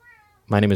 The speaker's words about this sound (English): That was the cat? Yeah, that was the cat.